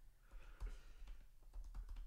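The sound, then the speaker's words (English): Faint typing on a computer keyboard, a quick burst of several soft clicking keystrokes heard alone. “To be typing on the internet into advanced AI, being like, what?”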